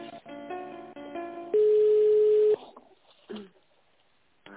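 Telephone line tones as a business call is transferred: a stepped electronic tune of steady notes, then one loud, long, level tone lasting about a second. Near-quiet follows with a few faint clicks.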